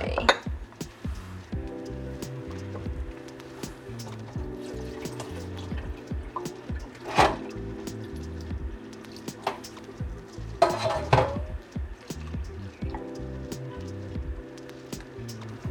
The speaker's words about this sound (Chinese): 好，那其实大家水可以慢慢加，就是边把水倒进去，然后边搅拌面糊。